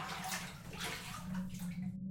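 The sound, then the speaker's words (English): Water splashes and pours steadily as someone squatting in the dark washes their body from head to toe with neem bush and egg, a continuous wet wash of sound. “I wash my body from head to toe with the neem bush and egg.”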